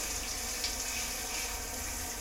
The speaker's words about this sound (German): Verstehe dich nicht, das Wasser ist zu laut.